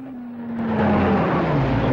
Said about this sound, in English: The deputy steers his jeep across the bumpy terrain and onto the track.